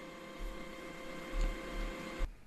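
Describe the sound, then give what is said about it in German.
Home printer working hard in the background, a steady whirring hum with a few soft mechanical thumps, cutting off abruptly just before the end. “Im Hintergrund hörst du meinen Drucker. Ich weiß nicht genau, was er da jetzt arbeiten muss. Aber er ist sehr, sehr vehement dabei zu arbeiten.”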